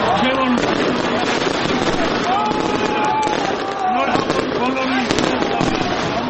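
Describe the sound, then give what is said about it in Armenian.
New Year fireworks at a tree-lighting celebration in the square in Vanadzor make a dense, continuous crackling and popping barrage that stays loud throughout. Crowd voices and tonal sounds can be heard mixed underneath. “Վանաձորում 3 վարվեցին տոնածառի լույսերը, հրավառություն եղավ։”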